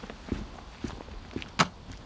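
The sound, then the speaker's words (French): Footsteps of someone walking past at night, a few faint separate steps with gaps between them and one slightly sharper footfall near the end, with no talk. “Ah. Il y a quelqu'un qui vient de passer. Il y a marqué un arrêt, qui se promène.”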